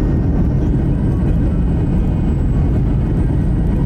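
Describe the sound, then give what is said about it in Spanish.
An airplane engine roars as the plane speeds along a runway: a dense, loud, steady low rumble with a thin high whine above it, held without a break for the whole stretch. “El avión comienza a... cada vez va más rápido y su motor suena más fuerte.”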